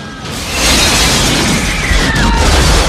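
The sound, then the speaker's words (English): A loud explosion as a house blows up in a film scene: a deep, rumbling boom that swells after a brief moment and holds, heavy and sustained, with crackling, debris-like noise layered over the low roar. “Herod struggles to sit up and is about to shoot when his house behind him explodes.”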